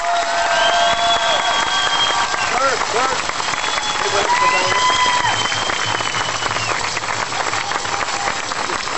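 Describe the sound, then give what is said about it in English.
Audience applause welcoming a speaker, the mother of a political prisoner, to a gathering: dense, loud, steady clapping that continues without pause throughout. “So please give her a warm welcome.”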